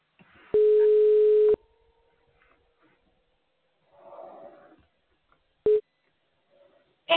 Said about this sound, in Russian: Начинаем звонок покупателю.